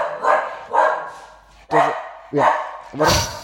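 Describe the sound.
A dog barks in a few sharp, loud bursts spaced roughly half a second to a second apart, each bark harsh and strongly voiced with a low, clear pitch.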